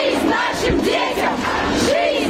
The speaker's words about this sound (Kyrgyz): Москвада арбатка чыккандар балдарыбызга жашоо, согушка жок деп ураан чакырып турушту.